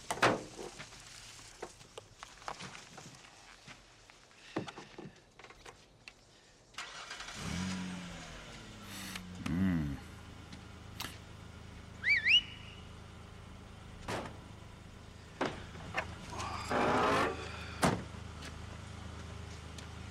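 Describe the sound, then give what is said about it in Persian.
A car engine is started by joining wires and then revved. Clattering clicks and knocks come first, then the engine catches and settles into a steady running hum, with a few short revs and scattered sharp clicks. “بشین تو ماشین استارت بزن، سیم سبز و قرمز برو دیگه، آپوله که نمیخوای هوا کنی. گاز بده.”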